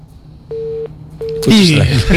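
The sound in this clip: Busy tone after a dropped phone call: two steady, mid-pitched beeps with a short gap between them, cut off as a person starts talking over the line.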